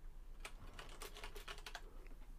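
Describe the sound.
Keystrokes on a computer keyboard, a quick burst of many faint clicks typed in an uneven rhythm.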